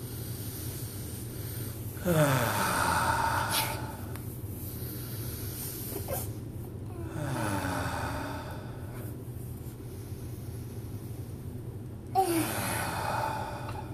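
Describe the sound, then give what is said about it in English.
Three slow, deep breaths, each a soft, airy rush lasting a couple of seconds, spaced evenly several seconds apart over a faint, steady background hum. “Let's do 3 deep breaths.”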